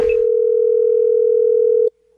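A telephone dial tone sounds as a call is placed: a loud, steady, unbroken tone that holds for nearly two seconds, then cuts off abruptly, with a short burst of noise at the very start.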